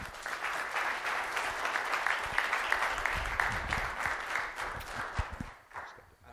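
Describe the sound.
Warm applause from a church audience greeting a returning guest speaker, steady clapping with some low thuds mixed in, which fades away in the final second.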